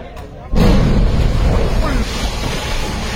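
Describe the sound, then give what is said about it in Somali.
Bomb blast at the Russian ambassador's convoy in Pakistan: a sudden heavy burst erupts out of quieter noise and becomes a sustained, loud, rumbling roar, with talk over it. “Marka uu qaraxa dhaca waxa isqabsanaya rasaas tirabeel ah oo ay qufayaan ciidamada ilaalada safiirka.”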